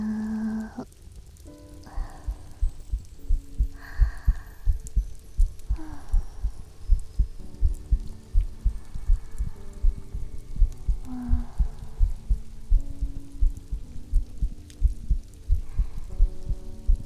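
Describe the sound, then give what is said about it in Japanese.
A heartbeat heard while being held against a person's chest: many steady, low, soft thumps in an even rhythm throughout, with intermittent tonal sounds drifting over them. “お姉ちゃんの心臓の音です。生きてる音。安心しますかね。”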